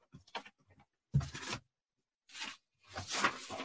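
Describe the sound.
Pages of notes are flipped through in a few separate papery rustles, each a short, dry swish broken by brief silences. The last rustle is the longest.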